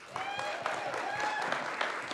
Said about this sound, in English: so can you give a hand and welcome Ms. Beth Hackbarth?